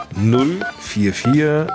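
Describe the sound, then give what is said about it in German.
A telephone number dialed on a keypad, a few short DTMF beeps in quick succession, mixed with other pitched, voice-like tones. “Also, einfach mal die Nummer wählen.”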